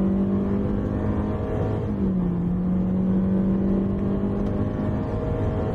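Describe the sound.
A car with a 1.8-litre, 105 kW engine and an automatic gearbox accelerates: a steady, low engine drone with a brief dip in pitch near the middle before it settles back, with no talk.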